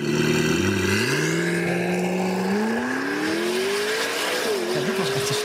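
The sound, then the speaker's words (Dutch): Engine of a McLaren MP4-12C sports car revving hard, its harmonic whine climbing steadily in pitch across several seconds, loud and continuous with no voices. “McLaren maakt nu eh, ruim vijf jaar straatauto's. Hè. Begon met de MP4 12C.”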